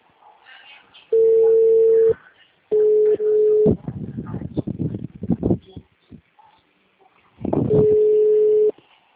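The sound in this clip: Three long, steady mid-pitched electronic telephone tones, each lasting about a second, are separated by gaps, with a stretch of clattering handling noise between the second and third.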